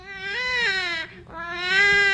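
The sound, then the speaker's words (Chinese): A newborn baby cries in a delivery room: two long, loud, high wailing bursts with a brief break between them and no talk. “我终于听到孩子哭声了。”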